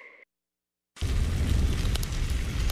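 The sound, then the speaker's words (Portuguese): Meat sizzling on a parrilla grill. A steady, loud crackling hiss with a low rumble starts about a second in and lasts to the end, after a short tone and a brief silence. “Esse é o som da parrilha do pobre Juan, de onde saem cortes assados no ponto perfeito.”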